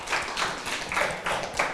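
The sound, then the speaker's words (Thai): Classmates clap for a student who has just answered a teacher's question: a bright, fairly loud patter of many hands that keeps going throughout, with a few brief surges in intensity. “ปรบมือให้กับเพื่อนค่ะ”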